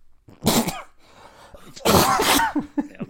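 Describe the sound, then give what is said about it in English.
Harsh coughing fits from someone who has just inhaled water. Two loud, explosive bursts are followed by a few smaller spluttering coughs, with no talk. “Sorry guys, I inhaled water.”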